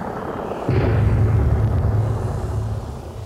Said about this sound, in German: Den Ton kenne ich. Ist ein C-43 Überlasttransporter. Bin das Ding selber mal geflogen. Macht den Lärm wie der jüngste Tag.